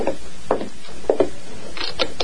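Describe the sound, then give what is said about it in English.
A wooden door is opened with a few dull clunks and knocks of handling, spaced out as separate short bursts over a quiet background. “He's dismounted. I'll open the door.”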